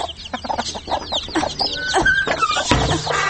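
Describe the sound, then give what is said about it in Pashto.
A hen clucks after hatching chicks, with repeated low clucks mixed with many quick, high peeps throughout. “راشه چې چرګې دې بچي ایستلې”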